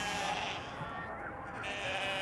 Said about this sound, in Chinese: 赶羊的，我用牛换你的羊，你愿意吗？